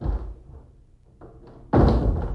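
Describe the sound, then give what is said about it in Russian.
Doors being shut: heavy wooden thumps, with a faint knock in between. The final slam is the loudest and rings on briefly after the impact. “Затворите двери.”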